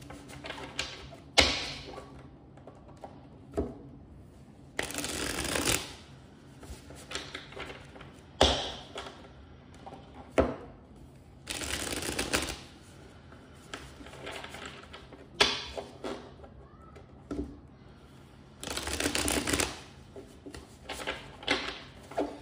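Tarot cards being shuffled and drawn during a weekly reading: many irregular soft papery rustles and brisk flicking bursts, with light taps as cards are set down, separated by quiet pauses.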